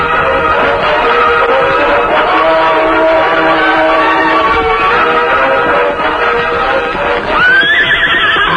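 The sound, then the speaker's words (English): Horses whinnying as riders gallop away east in a Western scene: a loud, dense, continuous din of neighs and movement, capped near the end by a sharp, rising high whinny. “There they go, Tonto, riding east toward Clanton.”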